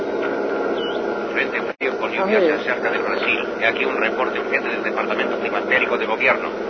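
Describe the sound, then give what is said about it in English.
A radio is switched on for a weather report: a sharp dropout like a switch click, then steady band-limited hiss and static with warbling tuning tones and faint, muffled broadcast voices throughout. “I know, I'll get the latest weather report on the radio here.”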